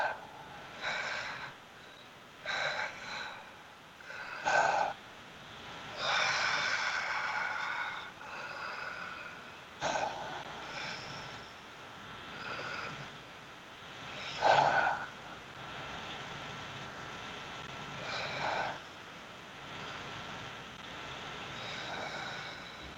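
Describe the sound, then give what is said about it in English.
Long, full breaths drawn during a guided grounding breathing exercise: a series of slow, loud inhales and exhales with a rushing, nasal quality, each one separated by brief quieter gaps. “Probably on the long and full breaths pretty soon, if not already.”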